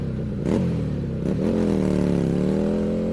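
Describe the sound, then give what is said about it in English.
Motorcycle engine revving: a couple of quick throttle blips that jump up in pitch, then a steady, throaty drone that climbs gradually, loud and without talk. “All this and more as we rev up our motorcycle”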